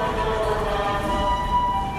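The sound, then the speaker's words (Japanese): An ambulance siren sounds on a street in Osaka, a loud, steady tonal wail with layered harmonics that holds through the whole clip over a low rumble. “大阪名物の救急車ですね”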